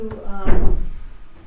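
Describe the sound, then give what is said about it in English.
A door is pushed shut with one low, woody thud that dies away quickly, just after a brief voice. “I'm going to go close that door.”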